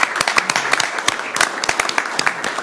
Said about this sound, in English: would you please stand and let's give you all a round of applause for being here.